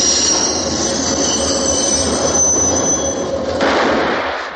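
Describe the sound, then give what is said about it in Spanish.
A tram passes outside, its wheels squealing on the rails over a loud, steady rolling rumble that holds throughout and eases slightly at the very end. “Fuera pasa un tranvía, Michael se levanta.”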